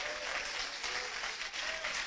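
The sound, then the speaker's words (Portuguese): A church audience applauding: a dense, steady wash of many hands clapping together, even and unbroken throughout, fairly soft in level. “Exalta o Senhor com palmas bem alegre para Jesus. Palmas e glória a Deus.”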